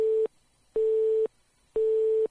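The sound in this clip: A telephone busy tone after the other caller hung up: three steady, mid-pitched beeps of equal length with even silent gaps, clean and loud.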